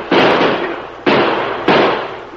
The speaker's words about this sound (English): Stop him. He must have robbed the bank. Sure. Probably killed the banker, too. Shoot at him, boys.